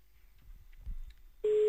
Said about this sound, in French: Allez, encore une petite sonnerie, ou deux.